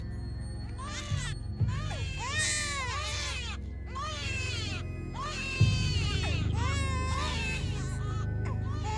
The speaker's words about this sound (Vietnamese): đột nhiên lại thêm một tiếng khóc nữa vang lên